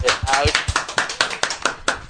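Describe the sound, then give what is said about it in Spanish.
Hands clap in a steady, evenly spaced rhythm of sharp, separate claps, from a few people rather than a full crowd, while people keep talking over them. “Un aplauso, por favor.”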